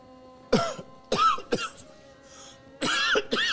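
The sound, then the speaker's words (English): A man coughs and clears his throat after smoking a spliff: several short, rough bursts in uneven rhythm, moderately loud, with brief quiet gaps between. “Cough. Cough.”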